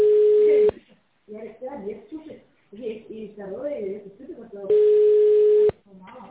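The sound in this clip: Ringback tone while waiting for a company phone line to answer: two steady, level tones about four seconds apart, with a recorded voice speaking in the gap between them.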